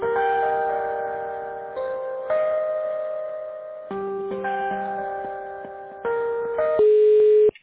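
Electronic on-hold tones play while a phone call is transferred to an IT department extension. The sustained synthetic notes shift in pitch step by step in a slow sequence, fairly quiet and thin, with no talk.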